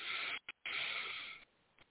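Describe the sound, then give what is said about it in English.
A deep breath in, taken during a guided meditation, heard as a long, steady, airy rush of breath that briefly breaks off and then resumes, with no talking. “So we're going to take one deep breath in.”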